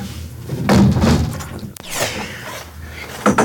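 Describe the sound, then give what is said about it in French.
A window being closed: a loud rumbling slide, then one sharp knock as it shuts, followed by quieter shuffling noise. “Je vais fermer la fenêtre.”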